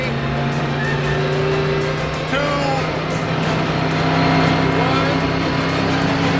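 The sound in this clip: Pickup truck engine as the driver floors it, a low steady drone with a sustained hum and a faint, higher whine layered on top, at a fairly even loudness throughout.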